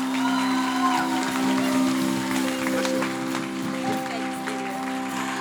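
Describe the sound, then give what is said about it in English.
A standing audience at Harmony Church in Christchurch applauds to welcome a speaker with steady, sustained clapping that blends with held musical tones underneath and stays at an even level throughout. “Let's all stand together and give a thunderous welcome to Catherine Ruinala.”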